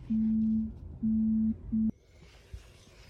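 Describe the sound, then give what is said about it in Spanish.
An incoming phone call signals with three steady electronic tone bursts, two long and a final shorter one, each evenly pitched and clear, followed by quiet. “me entra una llamada, como habéis visto”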